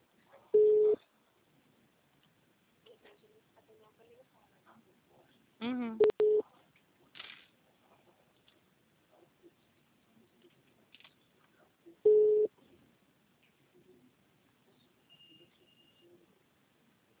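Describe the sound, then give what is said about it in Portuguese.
A telephone line gives a few short, widely spaced electronic tones on a call, faint voices murmuring between them. “Tá dando como se o senhor estivesse em uma outra ligação.”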